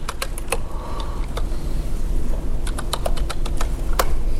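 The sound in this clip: Typing on a computer keyboard while entering figures into a spreadsheet during a lecture: many sharp, irregular key clicks in quick bursts over a steady low hum.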